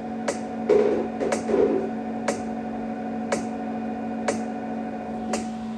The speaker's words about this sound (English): every time you hear that kind of rattlesnake noise, it's contracting the muscle in my pelvic floor. And so it's almost like everything contracts and everything tightens. Oh, here we go, listen.